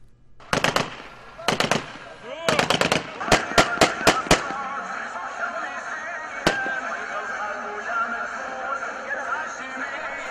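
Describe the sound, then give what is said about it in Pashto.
Celebratory gunfire fired into the air by armed opposition fighters in Idlib welcoming displaced people: sharp rapid bursts of automatic fire, then a string of loud single shots and one later shot, over a steady background din. “وسلوالو جنگیالو هوایي ډزې وکړې”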